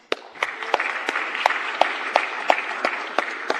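Applause in a Senate chamber welcoming a senator's guests: steady clapping from many hands, with sharp individual claps standing out, continuing evenly through the few seconds.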